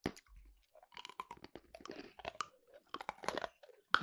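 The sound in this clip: Crunchy chewing of small, colored puffed snacks: many irregular crisp crunches and bites follow one another steadily, with brief quiet gaps between bursts.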